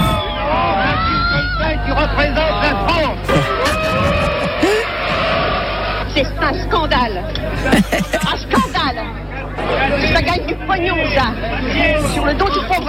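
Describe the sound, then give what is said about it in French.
Agitated crowd of spectators reacting after a 1973 film screening, a continuous loud babble of overlapping voices with occasional shouts and yells rising above the chatter. “Réaction nerveuse des spectateurs.”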